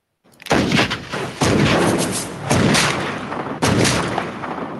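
Gunshot sound effect: four loud, booming shots at roughly even intervals, each with a long, rumbling tail that carries into the next blast, with no voices.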